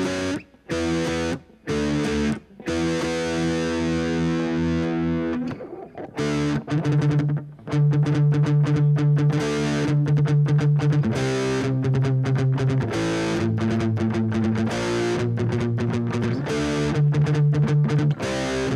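A distortion effects patch applied to a microphone gives a buzzing, heavily processed tone with steady stacked harmonics. It starts in choppy bursts, then settles into a loud, nearly continuous drone with shifting pitches.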